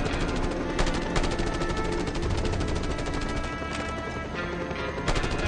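Rapid machine-gun fire during flight in a video game, a dense, continuous rattle of shots with a few heavier bursts, loud throughout.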